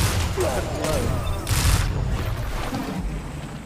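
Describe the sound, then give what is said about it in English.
Shotgun fire from the video game Destiny 2 during a player-versus-player match: a few heavy, booming blasts punch through a dense bed of game noise. “I got a shotgun. I'm not afraid to use it.”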